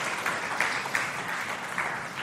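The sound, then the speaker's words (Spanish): A church audience applauds during a service, giving an even, continuous wash of clapping at moderate loudness with no clear break. “Eso, dele la ofrenda de palmas al Dios de la gloria.”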